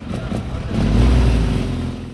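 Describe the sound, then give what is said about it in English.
A replica World War II Army Jeep and a motorcycle drive away, their engines a low, fairly loud rumble that swells after a moment and then holds steady. “The men drive away in their replica World War II Army Jeep and motorcycle to take part in festivities.”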